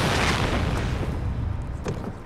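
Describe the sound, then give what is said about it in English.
A shirt thrown into a fire sets off a huge fireball: a loud, broad roaring whoosh that fills the whole clip and eases slightly toward the end. “throws it into the fire, causing a huge fireball”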